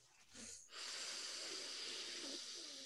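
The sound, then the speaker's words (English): A deep breath drawn in: a faint, airy hiss that swells and holds for about two seconds after a shorter, softer breath just before it. “All right, let's breathe.”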